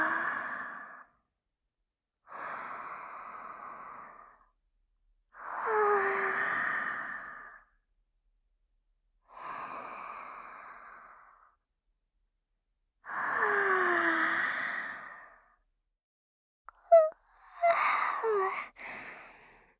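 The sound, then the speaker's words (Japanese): Slow, deep breaths in a guided breathing exercise done together: six long, airy inhales and exhales, evenly paced and separated by silent pauses, with a couple of small clicks just before the last breath. “それでは一緒に深呼吸をしましょう。”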